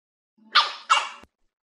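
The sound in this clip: A small dog gives two short, sharp barks in quick succession, alone and fairly faint, followed by a brief click.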